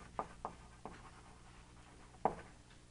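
A lecturer draws an activation record diagram on the board, producing faint, sparse taps and strokes. A few short marks are unevenly spaced against a quiet background.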